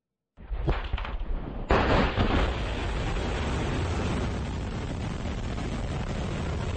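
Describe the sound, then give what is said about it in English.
Explosions from Russian airstrikes on Kyiv: two sudden heavy blasts, the second louder, followed by a sustained loud roaring rumble that continues to the end, with no voices. “that's the sound of Russia taking aim Sunday at Western military supplies for Ukraine, launching airstrikes on Kiev”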